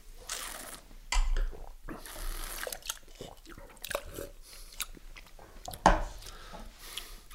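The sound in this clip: Wet slurping and sipping as people taste wine, a few noisy airy bursts mixed with small smacks and clicks, fairly faint, with little clear talk.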